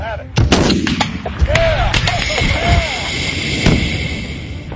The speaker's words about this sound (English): took the first shot at the propane tank. He knocked the spigot off, igniting the gas.